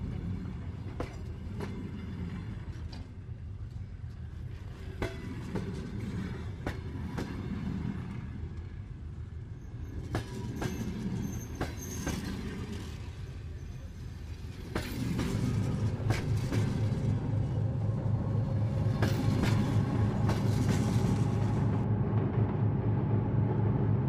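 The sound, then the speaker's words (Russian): A passenger train departing from the first track at a station: a steady rolling rumble with rhythmic clacking of wheels, growing fuller and louder about midway, with a low droning hum underneath. “Будьте внимательны и осторожны. С первого пути отправляется пассажирский поезд номер”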